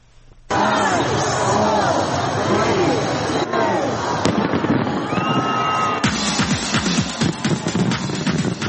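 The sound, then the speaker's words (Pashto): Fireworks burst over a large crowd at Sydney's New Year celebration welcoming 2020. Quiet murmur gives way to loud, continuous crackling and many sharp bangs, with crowd hubbub mixed underneath. “د استرالیا سیډنی ښار چې په یوه ورځې په کورونا وایرس د خورا ډیرو کسانو د اخته کېدو پیښې ثبت کړې وې د 2020 کال د هرکلي لپاره پکې خلکو اورلوبي وکړې.”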